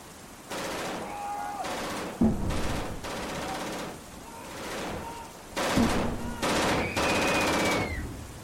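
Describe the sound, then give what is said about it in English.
Gunfire from people shooting comes in repeated sustained bursts of rapid shots, with brief gaps between the volleys. “Those aren't creatures. They're shooting at innocent people. I think they're just shooting at anything that moves.”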